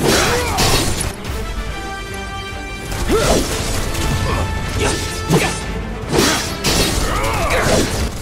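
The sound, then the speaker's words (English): Repeated attacks slam into a downed sweeper enemy in a video game battle. Loud metallic crashes, shattering impacts and swishes repeat over steady tonal music. “Now the sweeper is down and we attack it relentlessly.”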